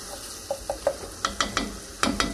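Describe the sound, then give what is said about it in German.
Onions frying in a pan: a steady, soft sizzle runs throughout, broken by many sharp clicking scrapes in uneven clusters, with no talk. “So, die Zwiebeln sind schön angegangen.”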